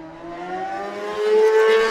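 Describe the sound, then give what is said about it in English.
A Honda racing motorcycle pulls away from the start line in a race, its engine note a strained whine that climbs steadily in pitch and grows louder partway through. “So it'll be James Hillier next away on the Muckoff Racing Honda. He's only 12th fastest again in qualifying, but he finished fifth in this race last year. James gets underway.”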